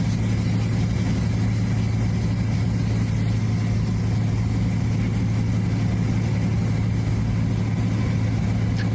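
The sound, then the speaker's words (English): Aircraft motor noise forms a continuous, even drone with a steady low hum that neither rises nor falls. It runs alone with no talk. “And again, that's just motor noise of the aircraft.”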